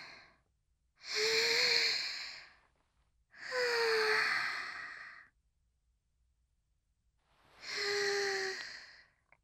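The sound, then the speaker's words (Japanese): Deep breathing, with three slow, drawn-out voiced exhales like soft sighs, each lasting over a second and separated by quiet gaps. “深呼吸。”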